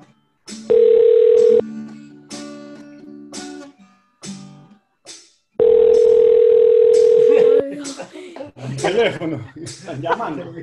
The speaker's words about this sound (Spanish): Llamando.